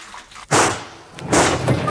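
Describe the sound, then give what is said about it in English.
Two loud gunshots fired to shoot off springs amid bursting pipes, sharp cracks about a second apart, each with a brief ringing tail. “I'm going to shoot off the springs.”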